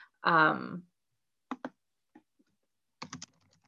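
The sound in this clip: Typing on a computer keyboard comes in short, sparse bursts of crisp clicks separated by pauses. A brief voice is heard at the start.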